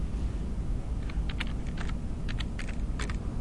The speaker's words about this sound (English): Could you type Arabic in this one right here?